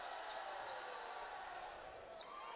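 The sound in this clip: A basketball is dribbled on the court during a men's college game between Cal Baptist and Dixie State. The bounces are faint and buried under a dense wash of crowd noise.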